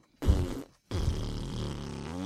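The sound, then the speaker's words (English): Two farts. A short, buzzy one comes first, then after a brief gap a longer, sustained, rumbling one runs to the end, with no talk. “Because the farts that you were making smell bad over here.”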